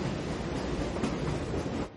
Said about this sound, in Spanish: De día un tren pasa junto a una fábrica.